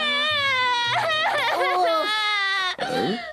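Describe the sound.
A cartoon child wails and sobs over losing her butterfly wings: a loud, high, quavering cry with a wavering pitch that breaks into a shaky, gasping sob near the end.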